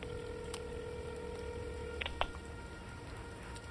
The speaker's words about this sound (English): I take a drink and dial Todd's number instead.